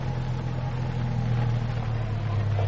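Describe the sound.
A car's engine rumbles as it pulls up to park near a racetrack: a steady, low, even hum that holds at the same loudness and pitch throughout.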